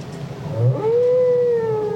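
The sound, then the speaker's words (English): A whale's song in the ocean: one long, loud moaning note that slides upward and then holds steady, with a low rumbling background underneath. “He'll sing anywhere from 6 to as long as 30 minutes and then start again. In the ocean, the other whales will pick up the song and pass it on.”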